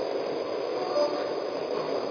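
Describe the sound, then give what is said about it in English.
A train pulling out of a station rolls with a steady, muffled rumble, and a brief high wheel squeal rises near the middle. “Now departing for South Amboy on track 1, train number 3703.”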